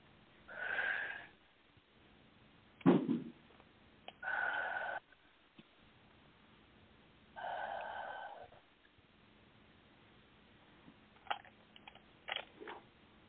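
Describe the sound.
Slow, deep breaths taken during a guided meditation: several soft, airy inhales and exhales separated by quiet pauses, with a few faint sniffs near the end.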